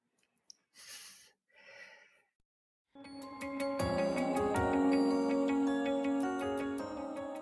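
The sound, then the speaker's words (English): A group of people breathing in deeply: two soft, airy breath sounds in quick succession, then a pause before tonal music enters and sustains. “So I'm going to ask you to breathe.”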